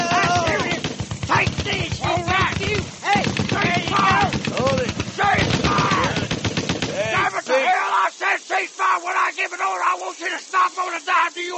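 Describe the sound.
Sustained automatic gunfire aimed at a sniper: dense rapid bursts pound for about seven seconds with shouting voices over them, then thin out into separate sharp shots with short gaps between them.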